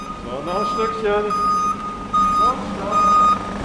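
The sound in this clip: Reversing beeps from a silver five-tonne truck fitted out as a mobile measuring lab, backing into an institute workshop hall: a steady series of high, even beeps, with a man's voice speaking over them.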